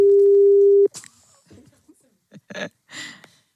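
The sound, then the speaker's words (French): A single steady telephone line tone lasts just under a second while a call is placed to a number in Liège province, Belgium. It is loud and even, then cuts off and is followed by a few faint voice and breath sounds. “Et donc, on appelle du côté de Bénezet, en province de Liège.”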